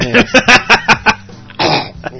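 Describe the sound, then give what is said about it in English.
Six short, sharp coughs come in quick succession, then one longer, rougher burst of coughing or throat clearing. “You got a slight cough there.”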